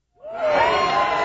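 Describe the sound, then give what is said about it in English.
Young children cheer, TK and kindergarten students opening a brand new public school in Mission Bay, San Francisco; a burst of high voices swells quickly and holds loud. “That's the sound of incoming TK and kindergarten students opening a brand new school in Mission Bay.”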